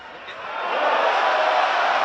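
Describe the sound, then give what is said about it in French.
A rugby stadium crowd grumbles over a disputed try under video review, a dense, steady rumble of many voices that swells louder through the first second and then holds. “si l'essai est annulé, ça change tout. On n'aimerait pas être à la place des arbitres, hein. Alors forcément, le public va gronder.”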